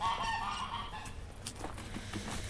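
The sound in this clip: Chickens cluck and call in a vegetable garden at a migrant shelter in Tenosique, a string of fowl calls over a steady background that runs through the whole clip.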